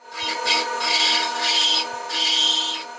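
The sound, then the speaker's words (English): Dental drill carving fossilized mammoth ivory in a carver's studio: a steady motor whine with a few harsh, raspy grinding bursts as the bit bites into the ivory. “That's the sound of a dental tool”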